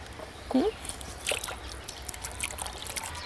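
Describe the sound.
Water trickles and drips faintly as an animal's sore foot is cleaned, with scattered small splashes and brief wet sounds over a low, steady hiss.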